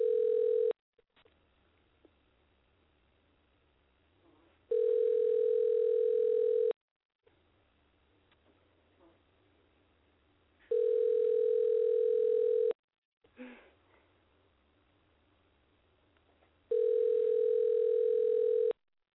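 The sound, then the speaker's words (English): A telephone line tone during dialing: a brief steady tone, then three two-second bursts of the same steady mid-pitched tone. Quiet gaps of about four seconds separate the bursts and carry faint line noise and a few clicks. “Okay. Dialing.”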